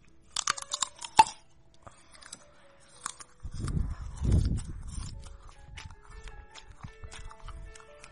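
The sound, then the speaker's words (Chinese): Crunchy chewing of sweet, fresh winter jujubes: a few crisp, sharp crunches at first, then a longer run of softer, muffled chewing with low, irregular bursts. “今天买了好多水果，买了枣子，买了冬枣，很好吃，很甜，去给你们听。”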